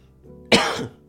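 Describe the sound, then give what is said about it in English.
A single short, sharp cough from a tickly throat, a sudden loud burst that fades quickly. “I'm sounding 10% more cynical this week, but it's because I'm pissed off with my own tickly throat because I'm holding back a little cough.”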